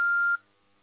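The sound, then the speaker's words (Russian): An answering machine gives a single short, high electronic beep at a steady pitch before recording a voicemail, then the line falls almost silent. “Сейчас вам не могут ответить. Пожалуйста, оставьте сообщение после сигнала.”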